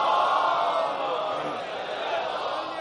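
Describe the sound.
A crowd recites salawat aloud together during a religious sermon, many voices merging into a steady, droning chant that stays loud for the whole clip.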